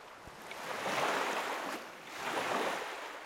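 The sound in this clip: Sea waves swell and wash in two broad surges on the open sea as a sailboat approaches, a steady hissing roar rising and easing with wind noise, and no voices.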